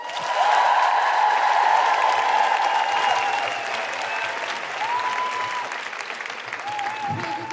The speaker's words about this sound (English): put your hands together and make extraordinary guilty feminist high-fiving sounds for the phenomenal Kima Bob!